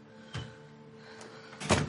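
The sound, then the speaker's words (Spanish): Door being closed in a house: a few soft knocks and thuds, the last one the loudest, faint against a low, steady background hum. “Suelta el bolso y se da la vuelta para cerrar la puerta.”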